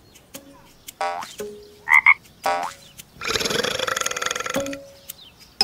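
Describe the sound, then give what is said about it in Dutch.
A frog croaks: a few short, gulping croaks followed by a long, loud, rattling croak, heard alone without talk. “dat was het geluid van een kikker”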